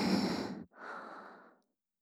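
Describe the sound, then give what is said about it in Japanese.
Deep human breathing, calm and unhurried: one full, breathy inhale followed by a long, softer exhale, alone with no speech. “さあラスト、もう一回吸って”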